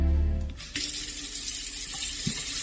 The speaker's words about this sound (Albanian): Uji të rrjedhshëm të ftohtë e të ngrohtë